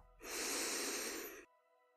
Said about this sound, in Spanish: Inhalando